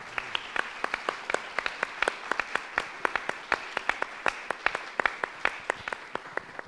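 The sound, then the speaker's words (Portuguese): Audience applause for the guests at a discussion event, many crisp, separate claps at a quick, uneven pace, fairly faint and steady for about seven seconds. “E queria agradecer nossos convidados, uma salva de palmas para eles.”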